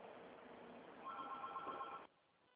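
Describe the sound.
A telephone rings with an incoming call: a single steady electronic ring lasting about a second over a faint line hiss, then cutting off abruptly into quiet.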